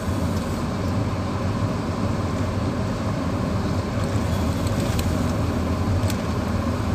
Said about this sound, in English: The engine's really sort of bogging. Well, not bogging, it's really throwing out a lot of power, you know. Accelerating out of that town up the hill, up the incline.